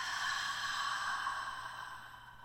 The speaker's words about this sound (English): Again, inhale, hold it, and exhale,